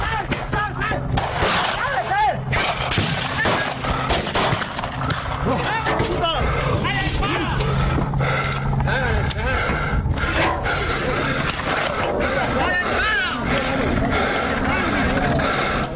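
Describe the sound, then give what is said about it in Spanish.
Gunfire from a real shootout: many sharp cracks and bangs packed into a dense, continuous stretch, with shouting voices mixed in throughout. “Así es, no son efectos especiales. Es el momento de la balacera, en ese momento se fueron vidas.”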